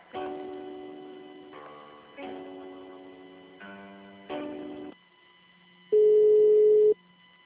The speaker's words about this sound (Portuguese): ligação caiu